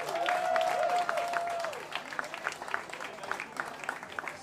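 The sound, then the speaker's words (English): Audience applause at a 2017 youth centre fair after a performance: a dense patter of clapping that gradually thins out over several seconds, with a sustained whistling tone over the start. “Ladies and gentlemen, please put your hands together one more time for the incredible Scarecrows!”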